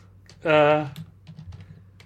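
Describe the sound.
Typing on a computer keyboard while searching for a book, with a brief voiced sound followed by a few light, scattered key clicks.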